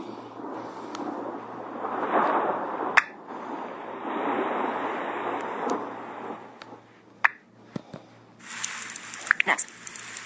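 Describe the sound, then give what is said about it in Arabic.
Steady rain makes a broad, rushing hiss, broken by a few sharp crackling bursts and sudden louder patches toward the end. “الصوت الثاني كمان. صوت مطر مع صواعق.”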